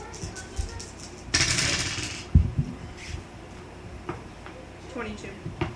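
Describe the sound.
Dice rolled during a tabletop role-playing game: a brief rattling burst, then a sharp clack as they land, with faint voices around.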